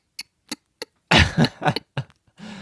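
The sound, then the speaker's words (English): A person scratches the back of their throat, making three short, sharp clicks followed by several harsh, raspy rasping bursts, ending in a softer voiced rasp. “A girl from public school taught me how to scratch the back of your throat by going”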